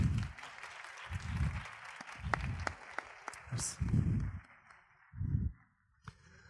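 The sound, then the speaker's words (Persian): Audience applause at a labour law and social security seminar, a continuous spatter of clapping with heavier low thumps pulsing through it, fading briefly near the end. “به افتخار خودتون یه دست بزنید”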